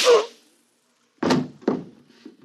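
Gunshot sound effects in a drama: two dull, thudding bangs a fraction of a second apart follow a brief quiet gap, with a fainter knock trailing after.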